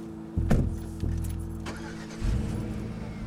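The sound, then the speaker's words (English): A car's engine runs with a steady low hum, broken early by a few sharp knocks or clicks, and its level swells noticeably louder about two thirds of the way through. “The red brake lights from Troy's car light up Budge for a moment, then they disappear as he drives away, back past Budge.”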